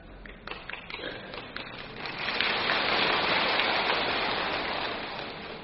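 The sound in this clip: Steady rain makes a dense hissing patter. It is lighter and broken at first, then swells into a fuller, louder downpour that holds before easing slightly at the end.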